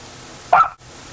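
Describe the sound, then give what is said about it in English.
A small dog gives a single short, high-pitched yip that is sharp and brief against a quiet background. “Well, it looks like we're being entertained by a little dog here this morning.”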